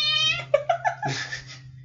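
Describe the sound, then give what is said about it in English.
A male cat makes noise while people are recording: a few short, bright meow-like chirps that step downward, then one longer, fuller cry that fades out. “This is what happens when you're not there to watch distract the cat while we're podcasting. I tried to distract him.”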